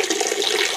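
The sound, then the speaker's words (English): Water trickles steadily as a sound effect of urinating, played during a live comedy stage show. It is a continuous, even splashing stream, brief and unbroken, with no voices. “That sounds like there's a bit of urinating going on there.”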